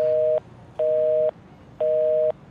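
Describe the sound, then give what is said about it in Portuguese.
A telephone busy tone sounds after a dropped phone call: three identical steady beeps, each about half a second long, evenly spaced by short silences, with no other sound. “Acho que caiu ligação aí.”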